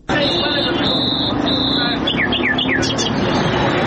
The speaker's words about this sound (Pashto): دا د کندهار ښار په منځ کې د وحشي مرغانو د پیر او پلور بازار دی.